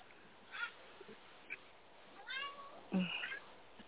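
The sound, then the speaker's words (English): A pet cat meows a few times: faint, short cries early on, then clearer, louder meows toward the end over a low background hiss. “Is that a cat meow? Yeah, that's my cat, Gracie.”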